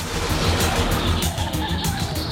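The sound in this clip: A car races through a narrow alley, its tires squealing in a loud, steady roar of engine and skidding rubber that holds without a break and has no talk over it.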